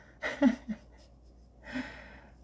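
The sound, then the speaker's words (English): A person's yawn: a breathy, airy intake carrying a low voiced groan, followed after a short pause by a softer, drawn-out breathy exhale. It is quiet overall, with no talk over it. “And there's the yawn.”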